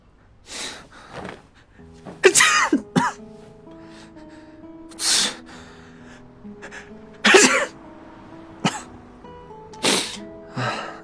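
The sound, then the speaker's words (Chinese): A voice imitating sneezing in an audio drama gives several sharp, breathy bursts separated by pauses. Soft sustained music tones play underneath. “接着又狠狠打了个喷嚏”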